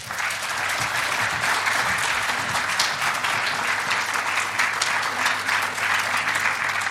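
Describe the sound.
Conference audience applause welcoming a speaker to the stage: dense, steady clapping from many hands that holds at an even level from start to finish.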